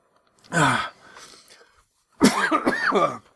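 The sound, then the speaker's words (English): Coughing after choking on beer breathed into the lungs: one harsh, throaty cough, then a short pause and a longer run of several rough, strained coughs and gasps. “I breathed in some beer. And beer doesn't taste good in my lungs.”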